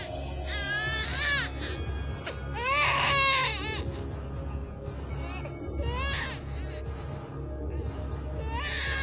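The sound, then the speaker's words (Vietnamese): Many infants cry in shrill, wailing bursts, some loud and some soft, with a few rising and falling cries over a low steady hum. “Tiếng khóc choe choé vang lên, lớn có, bé có.”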